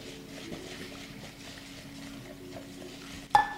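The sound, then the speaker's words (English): Whisking milk and cream into sugar in a bowl: faint, steady swishing and scraping strokes continue throughout, ending in a sharper clink against the bowl. “you're going to gently stream the milk and cream in while continuously whisking it. And you're going to keep stirring until the sugar dissolves.”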